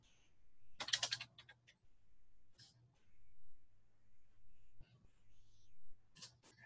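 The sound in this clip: Typing on a computer keyboard while a date is changed: a dense, loud burst of rapid clicks near the start, then a few short, separate bursts of keystrokes over a low steady hum.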